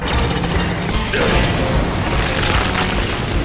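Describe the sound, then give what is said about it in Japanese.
A vibro blade deploys on a machine golem with a loud, dense mechanical boom and grinding rumble that swells and stays heavy throughout. “今展開された、それビブロブレードだ。”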